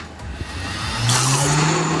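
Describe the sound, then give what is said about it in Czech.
An ice cream machine is switched on to mix blueberry sorbet made from sugar, water and lemon. After about a second of quiet background, its motor kicks in with a steady low hum and a broad whir that holds to the end. “Vy jste to všechno připravil, vypadá to, že se bude míchat, tak můžete zapnout stroj.”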